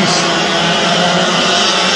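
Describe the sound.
Loud racing kart engine at full throttle out of turn four toward a fast S-bend, the kart sliding and being corrected; a continuous, dense buzzing roar that holds steady for two seconds.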